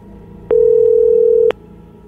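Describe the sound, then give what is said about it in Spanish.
A telephone line tone sounds during a call as a single steady, mid-pitched beep lasting about a second. Soft clicks mark its start and end over a faint background hum. “Pareciera que tú le estás marcando, ¿no?”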